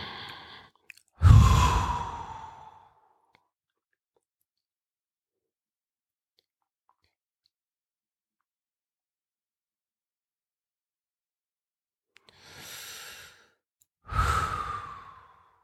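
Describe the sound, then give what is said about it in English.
Slow breathing for a breath-hold exercise: a loud, long exhale blown out near the start, then a long silent hold, then a soft inhale and another strong exhale. “blow out the breath, imagining emptying the content of the mind, and then the breath hold. Do it at your own pace, don't follow mine.”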